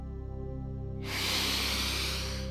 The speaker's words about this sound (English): take a deep breath in.